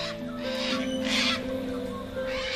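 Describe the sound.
A cockatoo gives a few harsh, raspy squawks over a sustained tonal hum underneath.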